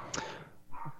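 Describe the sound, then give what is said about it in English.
A dog barks a couple of times, short sharp yelps that sound fairly faint, with no talking. “Sorry, my dog's freaking out right now. I'm closing my door here. I'm just going to close the door.”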